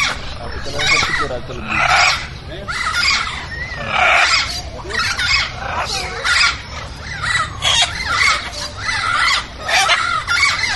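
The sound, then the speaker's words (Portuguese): Caged birds and small mammals at a city park make a dense, loud chorus of squawks, screeches and chatter. The calls surge in repeated bursts and carry on without a pause. “Ficaram as aves e pequenos mamíferos, que não economizam barulho dentro das gaiolas, fazendo uma festa para os visitantes.”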